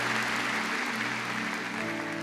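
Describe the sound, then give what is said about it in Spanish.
A church audience applauds the Lord during a worship service with a soft, steady spread of many hands clapping that stays quiet and even. “Entonces denle un aplauso al Señor.”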